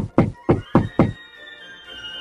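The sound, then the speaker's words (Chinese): Four firm knocks on the main door outside a dining hall, quick and evenly spaced with a hollow thud, then quiet. “但是突然听到了在餐厅的大门外有奇怪的声音，然后又听到了一连串的敲门声。”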